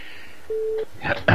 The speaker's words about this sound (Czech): já teď ani nebudu vyzývat Pepu, já mu rovnou zavolám